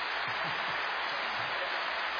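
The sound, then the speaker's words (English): Rain falls steadily in a jungle setting, a faint, even hiss with soft low patter that continues without a break. “Say it's raining. It's raining. It's raining.”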